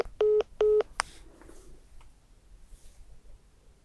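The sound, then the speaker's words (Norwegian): Telephone keypad dialing tones: two short, steady beeps in quick succession, then a sharp click, followed by a faint low hiss. “Da skal vi ringe Bjarne Bergum”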